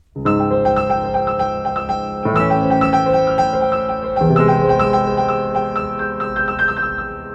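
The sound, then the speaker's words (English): Eerie, dissonant orchestral chords from a space film score, built from two unrelated major triads. Three loud, sustained chords enter one after another, each held and ringing, with no voices. “the second is those eerie space chords that come at the end of the crawl when we pan down the starfield to start the story. These space chords sound like this.”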